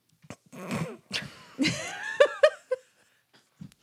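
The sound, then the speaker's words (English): A snort breaks out amid a fit of laughter: a string of short, choppy nasal bursts and giggling huffs, several loud and close together, with a faint final puff after a pause. “Sorry for the snort.”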